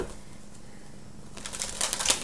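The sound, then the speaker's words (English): Cards drawn from a Life Purpose oracle deck, a soft flurry of riffling and flicking that starts after a quiet stretch. “So I'm going to get three cards from the Life Purpose deck.”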